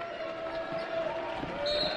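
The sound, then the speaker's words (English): A referee's whistle is blown for an offensive foul, an illegal screen, during a girls' basketball game. A single high, steady whistle blast sounds near the end over continuous background noise. “A whistle and an offensive foul. Illegal screen.”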